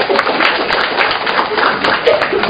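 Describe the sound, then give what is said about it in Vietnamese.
Applause from a church audience welcoming a man up to the front, a brief burst of dense, steady clapping that holds at an even level throughout. “Chúng ta cho chồng cái tay hoan hô gặp gỡ anh bạn này đi.”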